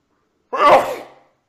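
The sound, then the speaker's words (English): A single sneeze bursts out sharply after a moment of silence, then trails off over about three-quarters of a second, heard alone. “2 seconds. While you sneeze.”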